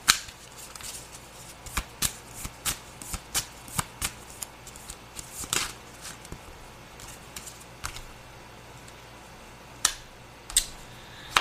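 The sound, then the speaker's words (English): Oracle cards shuffled and handled: many crisp flicks and slaps in an uneven rhythm, dense at first, then a quieter stretch with only a few sharp snaps near the end. “Okay, may I have two more cards, please? Thank you. May I have one more card, please?”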